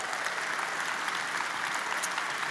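Audience applause during a sermon, a dense and steady patter of many hands clapping at moderate loudness that holds evenly throughout, with no talk over it.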